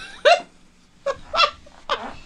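A dog gives three sharp, high-pitched yelps during play, each short and loud, spaced apart by brief pauses.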